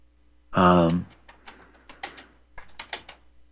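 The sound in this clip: A search query typed on a computer keyboard: a short voiced sound, then a quick, irregular run of soft key clicks.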